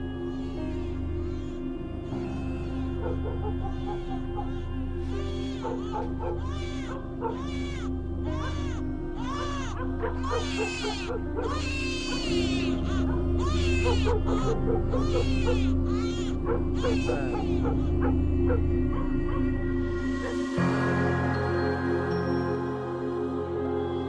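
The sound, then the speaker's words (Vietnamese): At night by the animal pens, chickens and ducks squawk and a chained dog barks and yelps. Many scattered, high, harmonic calls rise over a low, steady hum. “Ở dưới khu chuồng nuôi chẳng hiểu làm sao đêm nay gà vịt cứ ráo rác kêu lên. Con chó vàng bị xích ở đầu bếp cứ sù lông lên mà sủa xuống dưới ấy.”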